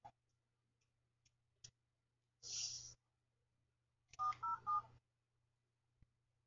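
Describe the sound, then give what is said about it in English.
Telephone keypad tones dial a number after a line was disconnected and the number changed: three short dual-pitched beeps in quick succession, preceded by a hissy burst and scattered faint clicks, with no talk. “See, listen. I dialed the wrong one.”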